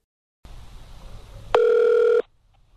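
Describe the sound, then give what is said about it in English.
A telephone line rings through to a police department: a soft line hiss, then one loud, steady ring tone lasting under a second that cuts off abruptly into silence. “I dialed up the Gunnison Police Department again to ask for their cooperation.”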